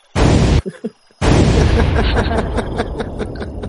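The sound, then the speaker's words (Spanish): Bomb explosions: a loud, sharp blast, then a short gap with smaller pops, followed by a long rumbling burst with crackling that slowly thins out. “Verdad, un momento las bombas.”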